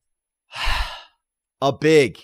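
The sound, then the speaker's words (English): A big deep breath: one long, rushing intake of air, then a short pause and a voiced, sighing exhale with a clear tonal quality. “a big deep breath”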